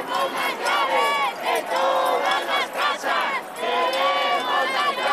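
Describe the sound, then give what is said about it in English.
A protest crowd in Spain chants over the housing crisis, voices rising in loud, rhythmic bursts of unison shouting separated by short dips, the chanted phrases repeating with a clear, driving beat. “That's what growing anger over Spain's housing crisis sounds like.”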